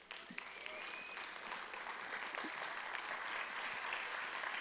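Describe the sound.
An audience applauds to welcome a speaker to the front at a church talk, steady, full clapping that starts abruptly and continues at an even level throughout.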